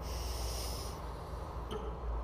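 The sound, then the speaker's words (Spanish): A strong, forceful exhalation during a guided breathing exercise: a steady, hissing rush of air that holds at even loudness for a couple of seconds with no speech. “Sostén y ahora la exhalación va a ser fuerte.”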